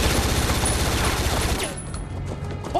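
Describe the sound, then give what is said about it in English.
Rapid automatic gunfire fired at a target: a dense, continuous burst of loud, crackling shots for about a second and a half, then it stops abruptly, leaving a quieter rumbling tail. “Feel free to shoot it, guys. Feel free.”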